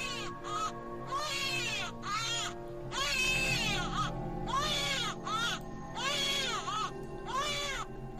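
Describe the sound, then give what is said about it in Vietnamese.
A newborn baby girl cries faintly from afar, in many high, wavering wails. The cries come in repeated bursts with short gaps between them, and no one talks. “Đâu đây có tiếng trẻ con đang khóc văng vẳng.”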